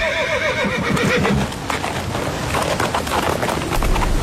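Horse hooves stepping lightly on snow, mixed with a loud, wavering whinny early on and dense, continuous clatter throughout.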